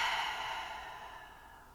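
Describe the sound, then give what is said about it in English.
A single soft breath during a calming breathing exercise, heard alone as a long, airy exhale that starts fuller and fades steadily. “Just taking a breath through the nose. And then releasing through the mouth.”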